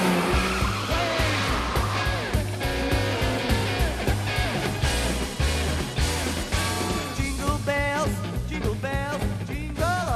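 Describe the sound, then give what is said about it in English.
A car passes along a street in a busy film scene, its engine roar continuous and loud, with squealing tires rising near the end. “Howard sees a car passing with a Turbo Man doll in the boot.”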